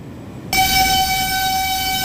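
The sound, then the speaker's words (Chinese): A horn sounds as a military train arrives at the Erenhot border crossing in the early morning: after about half a second of low rumbling it starts abruptly, then holds as a loud, steady, multi-toned blast to the end. “26号凌晨，蒙方军列驶入我国二连浩特国门。”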